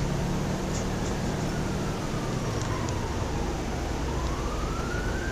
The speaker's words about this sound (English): Looks like the fire department's active.